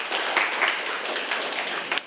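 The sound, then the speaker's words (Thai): Students clapping in a classroom, a short, even patter of many hands at moderate level that runs for about two seconds and then stops. “ถูกต้องนักเรียนปรบมือให้เพื่อนครับ”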